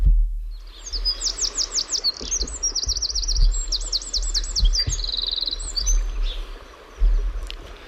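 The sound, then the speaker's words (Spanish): A Eurasian wren, a tiny and elusive bird, sings in the Sierra de Aracena in Andalusia. Its high, rapid trills run in quick phrases for several seconds over a low, uneven rumble. “Ahora es un chochín lo que oímos. Una ave pequeña y huidiza, una de las más pequeñas.”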